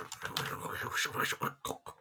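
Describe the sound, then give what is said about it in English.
Gift wrapping paper crinkles and tears in quick, uneven bursts as a present is unwrapped, soft and papery throughout. “It's because the limit was £10, so I found something that was... So, let me unwrap it.”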